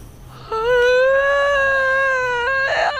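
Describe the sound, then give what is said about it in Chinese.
A woman cries in one long, high, wavering wail that is held for about two seconds and then breaks into a short breathy sob. “啊，你行了，别哭了， 老子没死呢。”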